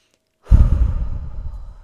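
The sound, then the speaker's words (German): A single deep breath, part of a relaxation exercise of breathing in through the nose and out through the mouth, starts abruptly after a short silence. It is breathy and fairly loud, then slowly fades over more than a second, with no speech. “atme dreimal durch die Nase tief ein und durch den Mund tief aus.”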